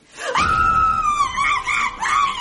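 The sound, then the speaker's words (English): A person screams in one long, loud, high-pitched cry that wavers and breaks toward the end, with no other voices. “What the hell are you screaming about?”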